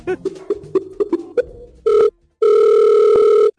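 Placing a telephone call: a quick run of about seven keypad beeps, then a short ringing tone and a longer second ring, with no voices.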